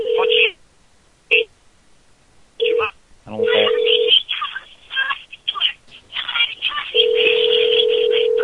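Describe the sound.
A telephone rings in a few short repeated tone bursts separated by silence, with voices breaking in between, and ends in one long, steady unbroken tone.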